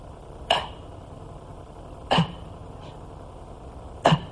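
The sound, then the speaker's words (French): A man's voice imitates desperate gasping for air: three sharp, harsh, breathy gasps, loud and evenly spaced with quiet pauses between them. “I'll demonstrate to you. This is how you breathe in hell.”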